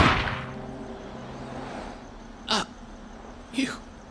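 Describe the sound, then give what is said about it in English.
Two sharp gunshots about a second apart during a tense confrontation, each a brief, loud crack standing out above a low, steady background. “You shot me, Brocious.”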